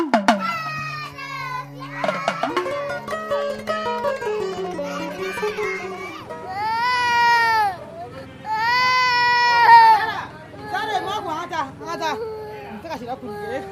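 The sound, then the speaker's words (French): A young child cries and screams while struggling between a hairdresser's thighs to escape having their hair done in Mali, loud, repeated wailing cries with shifting pitch and sobbing breaths running throughout. “Vous entendez là le cri d'un enfant qui se débat entre les cuisses de la coiffeuse pour essayer de s'échapper.”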